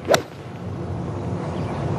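One crisp swish and strike of a 7-iron golf shot, played by a professional on a windy tournament hole, brief and loud, then fading into soft steady wind hiss.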